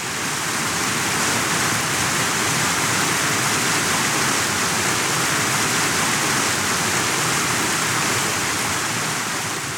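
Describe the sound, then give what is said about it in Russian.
Steady white noise, a dense, even hiss that resembles heavy rain or a waterfall. It holds at a constant loud level throughout, with no change or other sounds. “это звук стихийно дезорганизованный, напоминающий при средней силе шум дождя, в тихом звучании, ну, что-то вроде шелеста снега, а если очень громко, это шум водопада. Вот, белый шум.”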